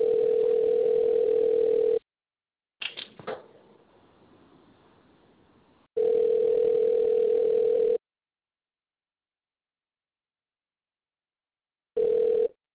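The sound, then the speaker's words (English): A telephone line tone sounds while dialing out: a steady, even hum in about two-second bursts separated by long silences, with a few clicks and a short stretch of faint hiss after the first burst. “Dialing out now.”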